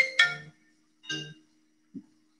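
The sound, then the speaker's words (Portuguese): A mobile phone rings with an incoming call during a live stream. A few short, bright electronic tones sound in a broken pattern, ending with a softer low blip, over a faint steady hum. “Desculpa aí, gente, que tá me ligando aqui na hora da live, agora não dá, né?”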